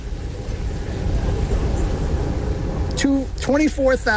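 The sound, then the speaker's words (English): A passenger train pulls out of East Taunton station, its steady low rumble and hiss running throughout at an even level, with a voice starting to talk over it near the end. “So we are departing the East Taunton station that quickly, and we are now heading to the Middleborough station.”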